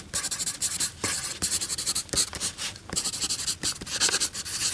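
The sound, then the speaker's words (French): A pencil held between thumb and middle finger writing on paper: continuous dry scratching strokes with brief pauses between them, fairly loud and steady, with no talking. “J'ai encore mon crayon entre les mains, pincé entre mon pouce et mon majeur. Et là, sans problème, si vous me demandez d'écrire, je peux reprendre ma position et écrire sans souci.”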